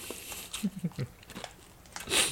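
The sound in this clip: Crunching a roasted red onion flavoured snack for ASMR: a few quick, crisp bites and chews, one after another, followed by a brighter crunch at the end, fairly faint.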